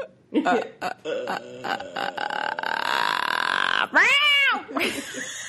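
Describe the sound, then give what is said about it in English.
A human voice imitating the croaking ghost from The Grudge: a stuttering guttural creak that stretches into a long, steady rasp, then breaks into a short cat-like wail. “That was the Grudge, just in case. It just sounded like part cat there at the end.”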